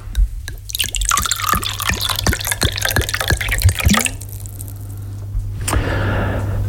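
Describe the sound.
Drink is poured from a nearly empty bottle: many small irregular drips and splashes, a brief gurgle, then a soft trickling hiss.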